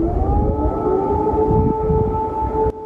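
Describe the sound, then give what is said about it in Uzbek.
An air raid siren over Kyiv wails with a loud, sustained tone that swells slightly at the start, holds level, and then cuts off abruptly near the end. “Kiyevda yana havo sirenalari.”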